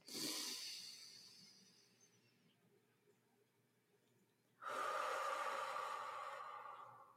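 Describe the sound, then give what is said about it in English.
Deep breath in and out during a guided breathing exercise: two long, airy breath sounds, the first fading gradually, then a quiet gap before a second full, steady breath that lasts to the end. No talking. “I just have to take a deep breath and let it out. Just breathe with me real quick.”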